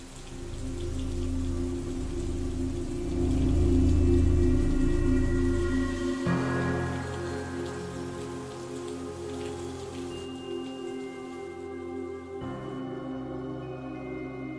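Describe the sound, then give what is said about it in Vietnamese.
Heavy rain pours on a stormy night over a village courtyard, a dense continuous wash that swells toward the middle and then settles into a steadier, slightly thinner downpour. “xen lẫn trong đó là mưa gió và sấm sét chói lòa. Mọi người nín thở giữa đêm mưa gió”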